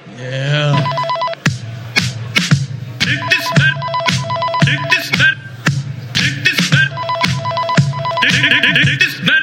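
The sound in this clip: A telephone bell ringing as a sound effect, in rapid, loud, repeated bursts of bright metallic ringing with short gaps and clicks between them, continuing throughout.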